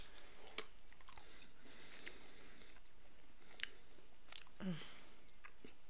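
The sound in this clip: Chewing on a jelly bean: faint, soft crunches and wet clicks spaced a second or so apart over quiet background hiss.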